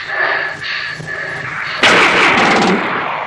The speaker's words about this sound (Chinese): 尝尝奴才的子弹吧